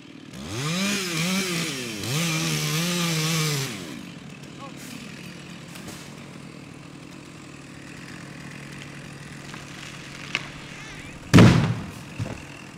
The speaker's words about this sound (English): he helped the City of Milwaukee forestry team take down the massive tree you just heard fall.